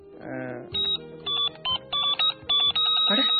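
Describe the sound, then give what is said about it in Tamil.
A telephone rings with an incoming call, its electronic warbling tone coming in a series of short, high bursts separated by brief gaps, ending in a longer, steadier ring. “கால் வருது. Hello hello, incoming காலா?”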